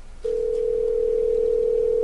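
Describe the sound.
A telephone dial tone sounds before a call is placed: one steady, clear tone that begins after a brief quiet moment and holds unchanged to the end.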